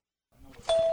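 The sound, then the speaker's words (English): An electronic door chime rings as the red front door of Hobbyland, a downtown Bloomington hobby store selling model trains and RC cars, swings open: a soft shuffle, then a sudden, loud, sustained bright tone that holds to the end. “That's the sound of the most famous red door in Bloomington Normal.”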